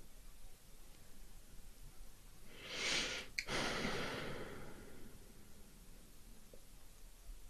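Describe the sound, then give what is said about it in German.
One deep breath, a soft, breathy rush of air that swells out of a faint, steady hiss and then fades away. “Gerade als ich in dieses Nachspüren reingegangen bin, da ist nochmal so ein tiefer Atemzug gekommen.”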